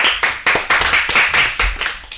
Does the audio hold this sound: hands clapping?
yes